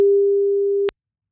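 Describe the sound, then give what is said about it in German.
A steady telephone line tone rings out alone as a call connects: a single held pitch for nearly a second that cuts off with a brief click, then silence. “Und jetzt hat Melanie nur noch eine Aufgabe, ans Telefon gehen.”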